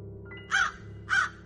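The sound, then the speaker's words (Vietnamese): A crow perched on a grave caws twice, two harsh, evenly spaced calls over a faint low hum. “Bỗng con quạ hôm trước đậu ngay mộ kêu lên quạ quạ.”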